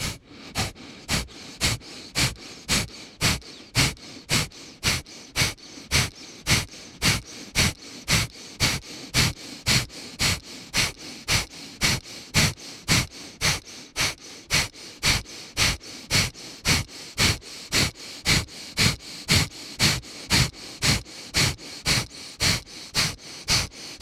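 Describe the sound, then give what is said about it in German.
Forceful kapalabhati yoga breathing: a long, unbroken run of many sharp, punchy exhalations through the nose, each a brief burst repeating at an even pace of about two per second, loud and heard alone. “Halte den Brustkorb oben und beweg den Bauch für Kapalabhati. Atme kräftig aus. Das Einatmen geschieht von selbst.”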